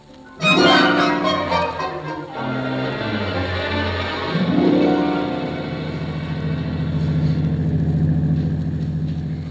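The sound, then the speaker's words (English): A car driving slowly through fog, its engine droning steadily and swelling upward in pitch twice as it speeds up, then holding an even hum. “Can't you drive just a little faster, Casey? It's after six, and we're late. I can't help it, Annie. I can't help it. I can't see if I try to do any speeding through this fog, we might wind up in a hospital.”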